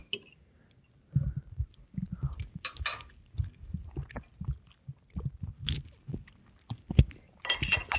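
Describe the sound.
Chewing of peppered, rather salty tofu being tasted: after a near-silent first second, many soft irregular bites and munching squelches follow steadily, with occasional brief crisp clicks.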